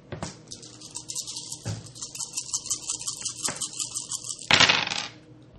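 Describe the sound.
Dice rolled during a tabletop role-playing game session, a dry clattering rattle of small impacts for several seconds that ends in a louder burst of clicks, with no voices.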